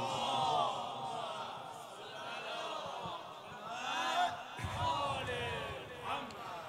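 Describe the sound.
A crowd reciting salawat in unison: many voices chanting together in a droning chorus that ebbs and then swells around the fourth second before settling again.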